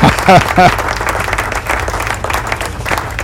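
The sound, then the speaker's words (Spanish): Applause sound effect played through a sound system: a dense, steady wash of crowd clapping that runs through the whole clip, with a brief voice-like sound near the start. “si yo subo esto, y subo esto aquí y doy aquí, ahí están los aplausos.”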